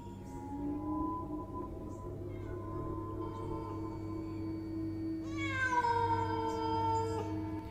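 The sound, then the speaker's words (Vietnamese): A cat meows: a long, loud, drawn-out call near the end, with fainter tonal meowing earlier, all over a steady low hum. “như là lúc bình thường thì có lẽ tiếng mèo kêu này nó cũng chẳng có gì đáng chú ý đâu. Chỉ là ở đây, giữa cái không gian này, khi mà một con quỷ vừa mới xuất hiện đâu đây thì tiếng mèo kêu làm cho người ta nghe gai hết cả người.”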